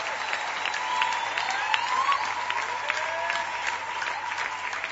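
Church audience applauding at the close of a French-language evening service, a dense, even patter of many hands that holds steady for about five seconds.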